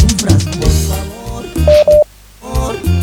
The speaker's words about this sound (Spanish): Ay, no puedo creer, me está llamando una personita muy. ah. ¿Aló?